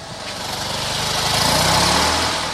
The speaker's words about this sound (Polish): uwaga, pociągam za wajchę rozrusznika. Odpalił.